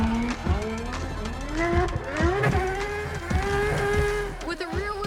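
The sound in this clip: A drift car slides sideways around a race track, its engine note sweeping up and down in pitch as it revs hard through the corners, with a steady, loud roar throughout.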